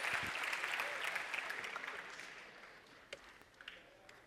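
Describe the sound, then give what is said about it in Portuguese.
Audience applause for a guest of honor: dense, steady clapping from a crowd that gradually thins and fades, ending in a few scattered claps. “Uma salva de palmas para Florence”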